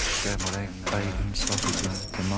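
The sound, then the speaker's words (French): A cash register mechanism clatters within a musique concrète piece, its ratcheting clicks and coin-like clinks adding a steady rhythm over dense, sustained music. “cette caisse enregistreuse, elle amène un rythme aussi, c'est-à-dire c'est pas seul, donc il y a quand même une raison musicale au-delà de la démonstration sémantique première.”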